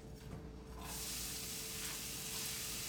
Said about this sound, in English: oil is hot. So I'm gonna go ahead and put in the garlic and onions just to get those guys cooking up.